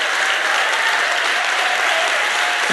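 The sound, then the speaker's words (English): Audience applause welcoming a guest onto a stage: dense, loud clapping that holds steady throughout, with a faint crowd murmur underneath. “I'd, like you to respond with a, a crazy Queens Boulevard welcome. Give it up for Mark Charles as it comes in.”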